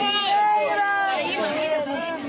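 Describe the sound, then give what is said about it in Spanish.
A newborn baby cries amid the ruins of a building after an earthquake, a thin, wavering, high-pitched wail that continues for about two seconds. “Y queremos terminar con un llanto. El de este recién nacido que ha venido al mundo entre las ruinas de un edificio.”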